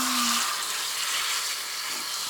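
Water rinsing a child's hair, heard as a steady, full hiss of flowing water that holds fairly even throughout, with no voices.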